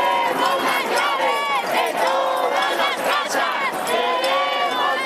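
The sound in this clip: Crowd protesting the housing crisis in Spain, with many voices chanting and shouting together in a loud, dense, unbroken roar of repeated slogans.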